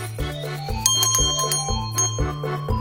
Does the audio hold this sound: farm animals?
no